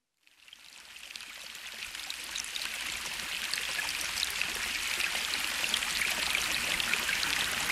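Steady rushing and gurgling of a mountain stream fades in at the start, then holds as continuous bright water noise with no other sounds.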